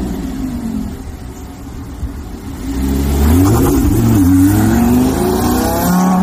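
A car engine revs hard and accelerates away, growing louder about halfway through and holding a steady, strong roar with engine pitch sweeping up and down as it pulls off.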